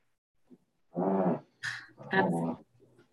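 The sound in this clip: Two dogs play-fighting, one of them a yellow Labrador puppy, give a few short growling and whining vocal bursts with brief pauses between them.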